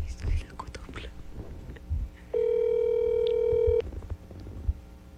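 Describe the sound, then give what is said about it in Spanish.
A single steady telephone ringback tone of a call that is then rejected sounds for about a second and a half before cutting off. Whispering and quiet talk continue before and after it. “Me rechazó la llamada. Hey, Walter, conteste.”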